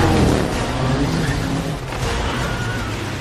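Steady roar of a Hyundai Palisade Hybrid being driven: dense, even engine and road noise that stays loud from start to end, with no voices.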